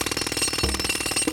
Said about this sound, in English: that's the sound of Neutrogena's new heavy-duty pore jackhammer